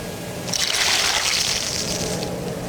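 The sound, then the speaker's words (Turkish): Melted butter poured over chicken soup: a bright, hissing pour rises after a brief pause and runs steadily for nearly two seconds before easing off, with no talk. “Yine tavuk suyunun üzerine de yağ dökeceğiz.”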